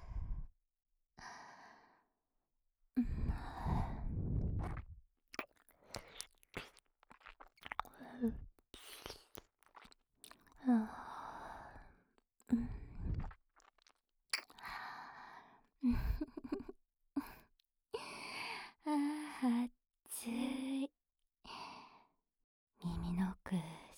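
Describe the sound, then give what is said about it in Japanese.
Wet licking and mouth sounds inside an ear, in many short moist bursts interspersed with soft, breathy sighs and exhalations. “耳の奥舐めてあげるね。真っ赤になった君の耳、いただきます。”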